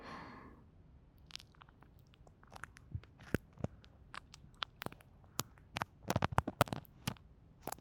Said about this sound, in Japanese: では最後にお客様のお耳をマッサージさせていただきますね。